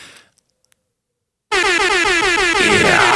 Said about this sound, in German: ich habe diesen Sound Airhorn, ne? Im Club, das haben ja DJs früher in den Clubs auch ab und zu gemacht